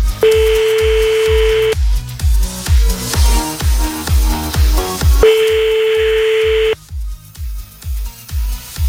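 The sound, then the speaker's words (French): A French ringback tone sounds after a phone call is dialed: two long, steady, mid-pitched tones, well apart, over a loud, regular rhythmic music beat that runs throughout. “Allez, on y va, on appelle un autre.”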